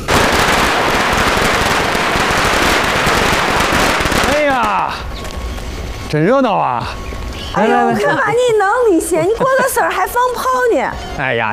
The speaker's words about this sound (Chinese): 你过个事儿还放炮呢？哎呀，姐，你弟这两年净走背字儿呢，放个炮，去去邪气嘛。